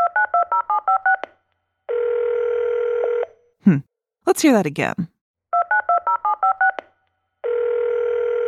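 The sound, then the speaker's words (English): Telephone dialing tones: a quick run of touch-tone beeps gives way to a steady dial tone. A voice speaks, then the beeps and the dial tone repeat. “A telephone! A telephone.”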